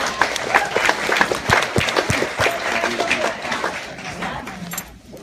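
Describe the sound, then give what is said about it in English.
Audience applause after a talk: a burst of many hands clapping in dense, irregular rhythm, loud at first and gradually thinning out and fading to quiet by the end. “Can you guys give Marcus a round of applause?”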